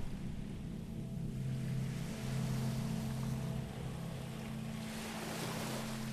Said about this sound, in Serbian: Slušaj. More.